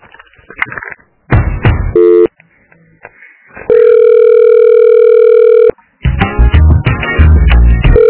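Ringback tone on a phone call to a clinic: one long, steady electronic tone of about two seconds, set between bursts of harsh, crackling line noise before and after it.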